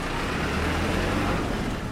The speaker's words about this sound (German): Ein Shuttlebus fährt TSMC-Angestellte zwischen den Gebäuden hin und her.